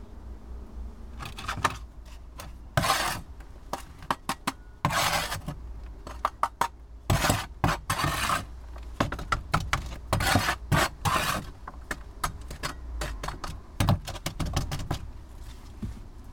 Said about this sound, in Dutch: doe eerst nog even deze grond in de stekbakjes die ik ervoor heb uitgezocht